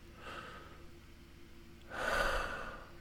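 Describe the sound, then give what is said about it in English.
A person takes a deep breath, heard as two quiet airy breath sounds. The second is longer and louder. “First, let's all just take a deep breath.”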